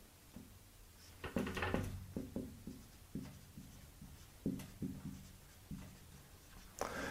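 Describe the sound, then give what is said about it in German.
Pen strokes scratch across paper as someone writes notes by hand, in short irregular bursts of scribbling with brief pauses. The sound is quiet and there is no talk. “Ja? Schreibe ich mal auf.”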